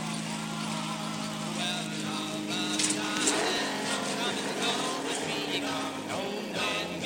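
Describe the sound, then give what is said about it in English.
A car engine drones steadily while driving, its clutch heavy and stiff to press, a continuous mid-level hum with voices talking over it throughout. “Let me drive. Takes a lot of strength to depress this clutch. This car can get away from you.”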